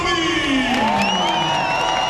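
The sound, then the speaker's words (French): Tennis crowd on centre court cheering and whooping for Novak Djokovic's entrance: a sustained, dense roar with higher whoops and shouts riding over it throughout. “Résultat, les tribunes ont eu le temps de bien se remplir et le public a tout donné lors de l'entrée du Serbe.”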